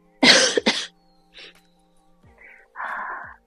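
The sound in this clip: Two sharp, forceful coughs come close together, followed by several quieter, short throat-clearing grunts separated by silence.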